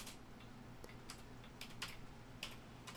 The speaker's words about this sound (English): I'm trying to type and talk at the same time. I can barely do one thing at a time, much less two.